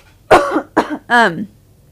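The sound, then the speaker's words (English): Coughs and throat clearing from a throat tickle: two short, sharp coughs, then one longer, voiced, rasping clear of the throat, all loud and separated by brief silences. “I'm sorry, guys, I have a throat tickle.”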